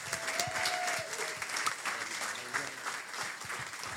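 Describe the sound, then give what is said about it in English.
Audience applause welcoming a speaker to the stage: sustained, dense clapping from a crowd, loud and steady throughout with slight swells and no letup. “let's give Landon Reynolds just a big City Hope welcome today.”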